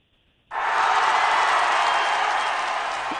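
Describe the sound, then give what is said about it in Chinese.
Audience applause of encouragement after a traditional opera song: a quiet opening, then a sudden burst of clapping that holds steady and loud to the end. “再给点掌声，刚才是给点鼓励的掌声”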